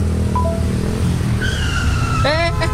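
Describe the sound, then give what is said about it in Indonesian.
Tires skidding as a motorbike brakes hard to avoid a collision: a strained, high-pitched squeal rises out of steady traffic rumble, breaks off briefly, then returns as a harsher, harmonically rich screech toward the end. “Untung lu sempet ngerem. Kalau telat dikit aja, bisa nabrak tuh tadi kita.”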